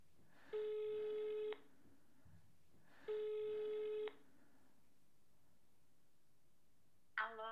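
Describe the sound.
Two long ringback tones sound as an outgoing telephone call is placed. Each buzzing tone lasts about a second, with a pause of roughly two seconds between them, and a brief click comes near the end.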